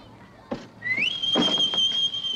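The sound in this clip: A sailor in naval uniform whistles a greeting in a house's front hall: one bright, clear note that glides quickly upward, then is held steady and fairly loud.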